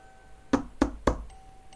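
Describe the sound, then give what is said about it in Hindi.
Three evenly spaced knocks on a door, sharp and fairly loud, standing alone against a faint quiet background. “Mister ड्राइबोन knocked on miss is door”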